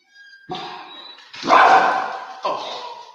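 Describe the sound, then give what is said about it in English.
A guard dog barks three times in a loud, uneven rhythm; the second bark is the longest and strongest, and the others are shorter and sharper. “Our guard dog is protecting us.”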